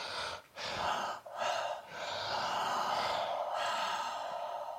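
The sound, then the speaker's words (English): Deep, airy breathing from a guided breathing exercise: long breaths that are loud and continuous, with a few brief dips between them and no talking. “Okay, so now we're going to do two reset breaths.”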